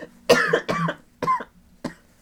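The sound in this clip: Four harsh, hacking coughs from one person, spaced unevenly. The first is the loudest and longest, and each later cough comes shorter and fainter.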